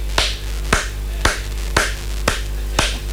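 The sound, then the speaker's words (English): One person claps six sharp, evenly spaced hand claps in a steady rhythm over a constant low hum. “I am clapping for Pep Guardiola.”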